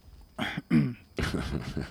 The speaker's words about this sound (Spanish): ¿Esa carraspera ha sido por algo?